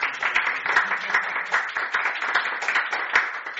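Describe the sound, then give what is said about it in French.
Applause welcoming a visiting family from the United States, many hands clapping in a dense, even patter that swells and dips slightly in loudness over several seconds. “On les applaudit.”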